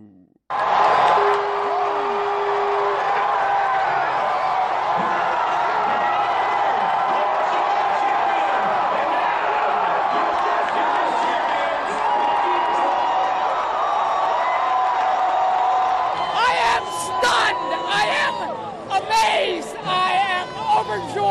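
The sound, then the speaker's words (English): Washington baseball fans cheer the Nationals' first World Series title in 95 years after a 6-2 win over the Houston Astros, with loud, sustained cheering and crowd chatter and sharper whoops and shouts breaking out toward the end. “where baseball fans erupted in cheers early Thursday morning to celebrate the city's first World Series title in 95 years after the Nationals defeated the Houston Astros 6-2.”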